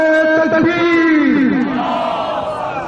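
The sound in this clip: A crowd at a religious celebration shouts the Takbir slogan in loud unison, many voices joined in one sustained cry whose pitch sinks toward the end.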